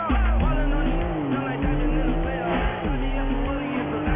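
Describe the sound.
Car engine roaring as a car drives fast southbound through city streets, a loud continuous roar whose pitch rises and dips with throttle and gear changes, with hints of tire squeal.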